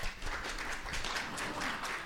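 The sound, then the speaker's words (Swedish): Audience applause: dense, steady clapping from a crowd, fairly faint and even, with no voices over it. “Ni vet väl att man aldrig ska applådera innan en föreställning.”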